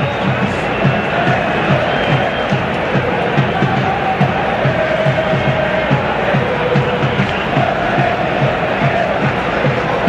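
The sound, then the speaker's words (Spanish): Audience crowd noise from a show intro: a loud, continuous wall of cheering, shouting and clamoring voices that stays dense and steady from start to finish. “Curioso la intro que hace George, que es como 30 segundos de público.”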